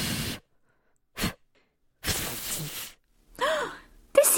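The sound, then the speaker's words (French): Hard blowing at birthday cake candles: a few breathy, hissing puffs of air, most short and one longer, with no talk. “Les bougies se rallument. Go again. Vas-y, Filou, souffle plus fort.”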